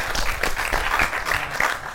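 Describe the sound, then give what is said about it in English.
An audience gives a round of applause, a loud, dense and continuous patter of many hands clapping that stays steady throughout. “Let's give a round of applause for her.”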